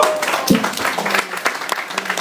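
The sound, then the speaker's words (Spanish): Audience applause at a comics event marking Spider-Man's 50th anniversary: dense, steady clapping from a crowd, fairly loud and even for about two seconds, with no talking over it. “Un aplauso.”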